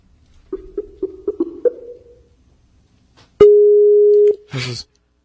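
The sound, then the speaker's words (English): A telephone busy signal: a rapid run of short, mid-pitched beeps, then a single longer steady tone, followed by a brief burst of noise. “I got a busy signal on that one.”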